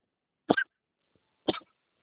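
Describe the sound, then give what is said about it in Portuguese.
Two short, dry coughs from a person with a lingering mild cough, spaced about a second apart and fairly faint, with no talking around them. “Desculpa aí que eu tô com uma tossinha chata.”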